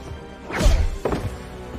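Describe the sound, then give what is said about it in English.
Heavy thuds of blows landing as two men tussle over a gun, the last knocking one man out; a couple of dull, low impacts with rustling scuffle between them. “He meets a goon, grabs his gun, they tussle, then Senior knocks him out.”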